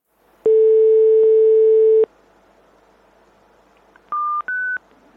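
Telephone call tones while phoning someone abroad: one long steady tone of about one and a half seconds, then after a pause two short higher beeps in quick succession, with no talk.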